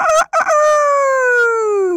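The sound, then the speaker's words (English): A rooster crows in one long, loud, harmonic call. It opens with a short broken burst, then holds a steady ringing tone that slowly falls in pitch to the end, with no other sounds. “Rooster did not want to forget Sun, so he looked up into the sky and cried out,”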